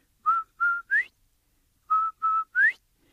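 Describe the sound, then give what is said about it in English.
Whistled imitation of a quail call, the sound of a turtle's borrowed whistle: six clear, mid-pitched notes in two groups of three, with the last note of each group sliding upward. “So old Turtle lets Quail borrow his whistle. So Quail's standing there, he makes that beautiful sound.”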